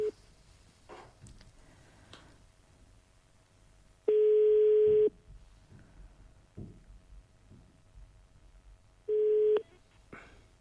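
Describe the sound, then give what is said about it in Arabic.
Ringback tone plays on a telephone line as a radio call-in connects: two long, steady buzzing tones are separated by a stretch of faint clicks and low noise. “يلا الرحيم راه كيربط الاتصال. توكلوا على الله. وهالهاتف يرن.”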